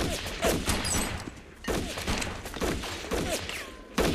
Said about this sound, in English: Shots are fired at Loke Dog's gang. Shoot everything in sight, everything!